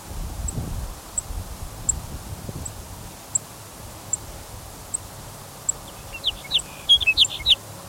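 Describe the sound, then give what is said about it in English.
Sage sparrow chipping, probably a female: a steady series of faint, high, sharp chips at regular intervals, followed near the end by a quicker cluster of brighter bird notes. “Another sage sparrow chipping, probably a female.”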